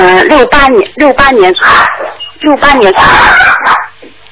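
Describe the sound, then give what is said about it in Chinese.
A dog yipping and whining heard over a narrow telephone line, in many short cries that slide up and down in pitch, in two bursts separated by a brief pause. “到底是你在说话，还是你们家那个狗在说话？”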